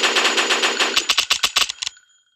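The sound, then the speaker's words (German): An MP5 submachine gun fires in a video game, first in a loud, sustained rapid burst and then in a string of sharp, separate shots before cutting off to silence. “Eine MP5.”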